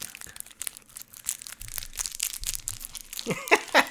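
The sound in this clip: Crinkling and tearing plastic as a bag of Snickers candy is opened: irregular crackly rustles come in bursts and grow louder and busier toward the end.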